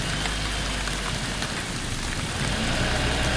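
Heavy storm rain pours down in a dense, continuous hiss that stays loud and even throughout, with no voices.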